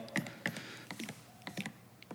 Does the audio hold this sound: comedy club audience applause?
no